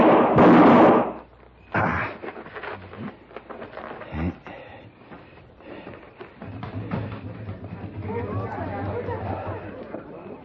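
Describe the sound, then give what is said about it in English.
A gunshot in a radio drama opens with a loud, sharp blast, and people then talk through the rest of the scene. “Alan, what happened? Somebody took a shot at me.”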